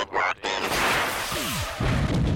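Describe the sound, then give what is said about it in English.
Cartoon sound effects of missiles being fired and exploding: loud, dense bursts of noise with a brief falling whistle partway through, all without any talk. “Meatwad is going to throw Shake in the air and then send some missiles at him and explode him”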